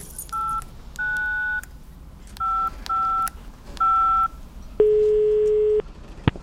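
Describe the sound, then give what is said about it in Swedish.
Touch-tone telephone number being dialed: five clear electronic keypad beeps of uneven length, followed by a longer, lower steady tone and a brief click at the end. “Jag måste ringa henne.”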